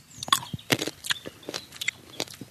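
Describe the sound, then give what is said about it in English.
Crisp crunching bites and chewing on a Sauvignac hybrid grape, bred from Sauvignon Blanc, Riesling and wild vines, come as many short, uneven moist snaps with no talk. “Okay, we're tasting the grape here. This is the hybrid.”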